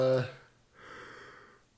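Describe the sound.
Two people yawning at the same moment: a voiced, breathy yawn that fades, then a softer, longer airy exhale, both faint.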